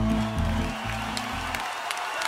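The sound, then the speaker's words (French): A town's audience gives a big ovation in a comic sketch: dense, steady clapping and crowd noise that starts under a low music bed, then goes on alone after the music stops about a second and a half in. “Devant une telle prestation, même le public de Grosboule-les-Bains fit une colossale ovation au candidat rival.”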